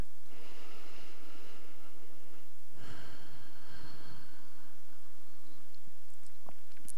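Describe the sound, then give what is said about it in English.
Deep, slow breathing: a long, soft, airy breath with a gentle snort-like rasp, alone in an otherwise quiet stretch. “And we can begin with a few deeper, longer, slower breaths.”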